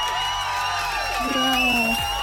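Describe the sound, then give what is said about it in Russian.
A crowd cheering and applause effect plays for a radio quiz winner. A steady wash of cheering carries whooping voices and gliding shouts over it at an even level. “Это абсолютно верно, абсолютно правильно. Я тебе поздравляю, аплодисменты для тебя.”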